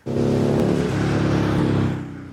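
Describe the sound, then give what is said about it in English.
Steady, loud engine drone from police vehicles in a motorcade procession travelling from Surrey to Richmond, holding an even roar throughout before easing slightly at the end. “The motorcade started from Surrey at 2 this afternoon. Police vehicles making their way to Richmond”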